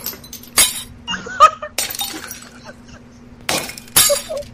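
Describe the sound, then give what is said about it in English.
Glass shattering from a mirror-breaking sound-effect machine: several sharp, bright crashes and tinkling fragments burst out at irregular intervals, separated by quieter gaps. “I gotta turn the volume up on the mirror breaking machine.”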